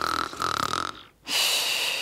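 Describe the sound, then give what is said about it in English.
A voice imitates French-style snoring: a rough, nasal breath-in "ron", a brief pause, then a long, steady hissing "psh" breath-out. Nothing else is heard. “When they breathe in, they go ron, and then they breathe out, they go psh. So they go ron, psh, ron, psh.”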